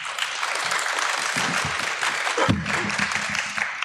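An audience claps steadily to welcome special guests onto the stage. The applause is dense and even from start to finish, with no voices above it.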